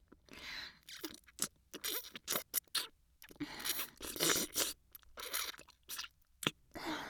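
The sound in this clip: Someone chews and crunches sweet food, giving many crisp, crackling bursts in an irregular rhythm separated by short pauses, with no talk.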